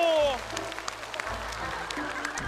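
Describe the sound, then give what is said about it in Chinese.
Applause in scattered, fairly faint claps follows a brief vocal exclamation at the start, with voices mixed in. “掌声”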